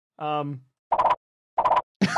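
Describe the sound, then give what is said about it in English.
Cartoon-style slip-on-a-banana-peel-and-fall effect: a short tonal whoop that dips at its end, then three quick, punchy thumping bursts after brief gaps. “That's the sound of me slipping and falling.”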